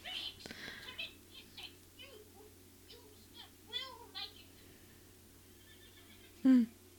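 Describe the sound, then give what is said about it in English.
Horses neigh in a few high, quavering whinnies over a steady low hum, with a short, loud, low burst near the end. “Horses.”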